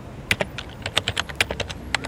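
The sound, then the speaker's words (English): Typing a web search on a computer keyboard: many quick, light key clicks in an uneven rhythm, some slightly sharper than others, with no voices. “Typing in another Google search”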